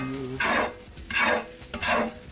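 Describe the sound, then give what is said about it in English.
Dinner sizzles and is stirred in a pan as three scraping strokes sweep through the steady frying hiss, each rising and then fading. “I'm actually cooking my dinner. For me and my family.”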